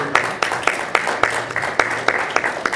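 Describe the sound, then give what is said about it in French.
Audience applause at a comics convention panel, a light, steady patter with sharp individual claps regularly standing out above it. “Je vous demande quand même un petit peu d'applaudissements, parce qu'il y en a qui ont fait beaucoup de chemin.”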